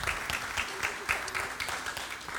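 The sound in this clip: An audience in a church applauds to welcome guests, a dense, steady patter of many hands clapping throughout.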